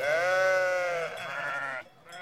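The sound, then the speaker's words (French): A sheep or goat from a grazing flock gives one long, wavering, nasal bleat lasting nearly two seconds, loud and alone, then breaks off into a brief, fainter tail. “Observe le troupeau qui paît sous tes yeux.”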